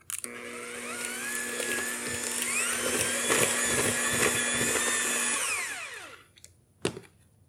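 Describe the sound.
An electric mixer beats lemon pudding cake batter of egg yolks, sugar, butter and lemon zest. It makes a steady whirring whine for about six seconds, then winds down, and a single brief knock follows.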